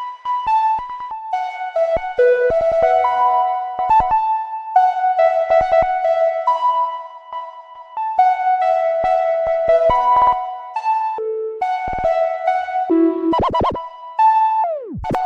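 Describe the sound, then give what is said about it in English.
A simple synth lead melody runs through time-based effects on the master, with stuttering note repeats, pitch shifts across the melody and on single notes, and a DJ-scratch-like sound. It ends in a tape stop that drops sharply in pitch. “So we had everything from note repeats, changing the pitch of the melody, or changing the pitch on specific notes, and then even like a DJ scratching sound, and then like a tape stop.”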